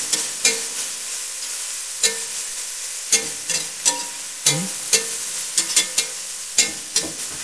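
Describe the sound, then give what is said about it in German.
Food roasts in fat in a pan with a soft, continuous sizzle, broken by many sharp scraping knocks of a utensil stirring against the pan at irregular intervals. “Wenn ihr zu wenig Fett habt, tut noch mal ein Teelöffelchen dabei, ne? so dass das wirklich schön röstet.”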